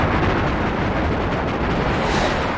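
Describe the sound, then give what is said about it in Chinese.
Artillery fires a second salvo at enemy positions in a battle scene, a dense, continuous roaring rumble of blasts with no clear gaps, loud throughout and easing slightly at the very end. “炮兵准备，二次向敌阵地射击。”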